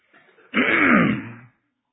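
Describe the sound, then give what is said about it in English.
A single harsh throat clear, a rasping burst of about one second, preceded by a faint, brief sound. “Excuse me, I have a hard time keeping my throat clear.”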